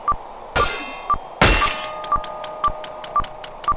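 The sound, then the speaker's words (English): A training dummy striking a raised guard in a video game, with two heavy, crashing impacts early on, followed by a regular run of short, sharp metallic ticks. “For this step, keep your guard raised and let the training dummy strike it repeatedly until your guard breaks.”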